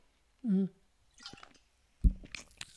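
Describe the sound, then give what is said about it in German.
Someone takes a sip of a drink. A few faint, wet, squishy gulping and swallowing sounds are spread over a couple of seconds, heard alone. “Ich muss mal eben einen Schluck trinken.”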